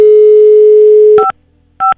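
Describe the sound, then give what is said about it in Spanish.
Telephone tones on a call being placed to a mother: a steady, loud dial tone, then two short two-pitch beeps separated by silence. “Le estamos marcando.”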